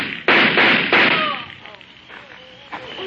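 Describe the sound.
Two sharp pistol shots in a radio drama ring out close together, each a loud, abrupt crack followed by a fading tail, then a stretch of quieter faint tones.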